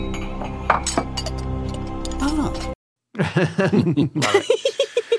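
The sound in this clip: Teacups clinking in a tea-time sound effect. A sustained ringing tone is followed by a brief silence, then a quick run of light, repeated clinks.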